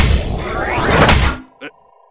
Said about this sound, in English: you seem to have shut the door to the Mach Billion control room.